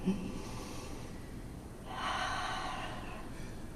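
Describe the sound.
A deep breath in during a breathing exercise: a soft, airy inhale swells up and carries on for nearly two seconds, faint throughout.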